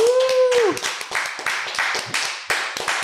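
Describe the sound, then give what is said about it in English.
Audience applause greeting a guest on a talk show: after a brief drawn-out vocal call at the start, steady, lively clapping of many hands continues to the end. “Give a big hand for Tony Weathers.”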